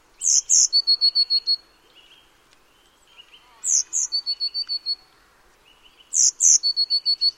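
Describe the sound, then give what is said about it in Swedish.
A blue tit sings three separate high-pitched phrases with quiet pauses between them. Each phrase opens with a couple of piercing notes and runs into a rapid, evenly spaced trill of thin, bright notes. “Nu får ni lyssna på blåmesen redan innan här, så behöver ni inte gissa.”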